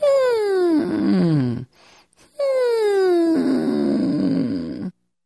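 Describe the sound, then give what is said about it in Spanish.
A voice imitates a crying puppy during a singing exercise: two high, squeaky whining glides that slide downward in pitch, separated by a short pause. “Incluso puedes empezar en la parte superior, como un cachorro llorando, así.”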